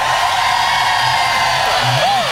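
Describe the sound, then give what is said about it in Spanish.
Loud, continuous roar of a stadium crowd shouting for joy at a religious gathering, a dense wall of voices with one rising whoop near the end. “Y suena así. Más fuerte, más fuerte, más fuerte.”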